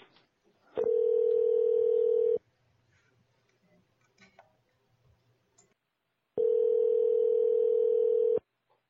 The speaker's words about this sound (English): All right, let's dial him up right now.